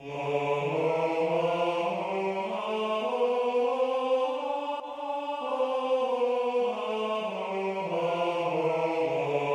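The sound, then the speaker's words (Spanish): A Dorian scale on D (re, mi, fa, sol, la, si, do, re) is played with sustained, harmonically rich tones, stepping upward note by note and then back down, at a steady moderate level. “el dórico, que se obtiene al trazar la escala re, mi, fa, sol, la, si, do, re, con una interválica que, transportada a cualquier otra nota, hace que ésta se convierta también en una escala dórica, consecuentemente, y que suena así.”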